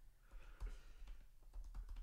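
Faint typing on a computer keyboard: many soft, irregular key clicks, some falling in quick clusters, with no voices.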